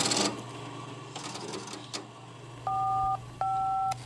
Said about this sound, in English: so we're going to dial. It's very noisy. The Strowger basically replaced human operators at the end of the 19th century. It would find the line you were calling based on the clicks that you generated while you were dialing.